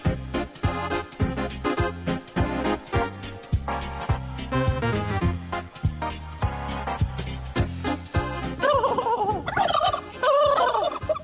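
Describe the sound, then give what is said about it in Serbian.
Many turkeys gobbling on a turkey farm: a loud, dense chorus of rapid, warbling calls that runs throughout, with no talk. “Farma Ćurana.”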